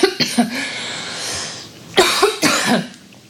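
Coughing from a tickle in the throat: a few quick, dry, loud coughs, then a pause and another short run of coughs, with no talk over them.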